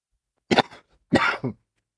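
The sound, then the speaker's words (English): A person coughs harshly in two short bursts with a brief gap between them, the second burst breaking into two parts. No other sound is heard. “So, excuse me for my coughing, no?”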